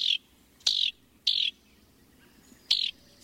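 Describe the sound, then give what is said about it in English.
Four short, high chirps from a house wren, evenly spaced with gaps of quiet between them, fairly faint over a calm background. “It's a familiar songbird and one of the most thoroughly studied by biologists. In North America, house wrens breed in open woodlands, fragmented forest, and along wooded edges”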